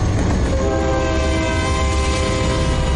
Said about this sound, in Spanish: Un tren de mercancías se acerca por detrás.